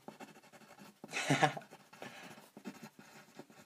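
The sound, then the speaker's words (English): A pen scratches out handwritten notes in one brief, scratchy burst of scribbling, surrounded by quiet talk. “Oh, that actually sounds smart. I'm gonna write that down.”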